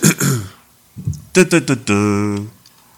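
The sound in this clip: Throat clearing and coughing from a very dry throat: a few short voiced, raspy bursts, then a longer, steady droning grunt, loud and close.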